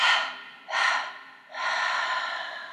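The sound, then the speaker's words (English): Three sharp exhales during a guided breathing meditation: loud, breathy bursts of air, each fading off, with the third held longest. “And three sharp exhales.”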